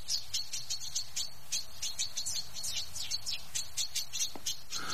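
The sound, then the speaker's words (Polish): Chaffinches singing outdoors: many rapid, high, bright chirps repeated in a quick, even stream, fairly faint over a steady low background rustle. “Pięknie to wszystko nagrane było. Dodajmy, że ten dźwięk ptaszków zawdzięczamy panu Tomaszowi Ogrodowczykowi, który zarejestrował je.”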